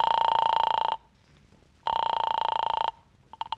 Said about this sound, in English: Anyway, I dialed Clifton's number.